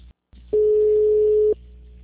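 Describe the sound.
A telephone ringing tone sounds on an outgoing call: one steady, mid-pitched tone lasting about a second, with a soft line hum before and after it.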